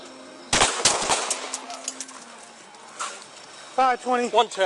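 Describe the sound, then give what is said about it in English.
Police gunfire at a man carrying a shotgun: several sharp, loud shots crack in quick succession near the start, followed by a lull of noise and then a person speaking near the end. “Shots fired.”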